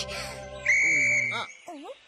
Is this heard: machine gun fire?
no